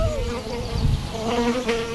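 A horsefly, a large fly with an elongated body about a centimetre long, buzzes around close by. Its loud, continuous drone has a slightly wavering pitch and no talk over it.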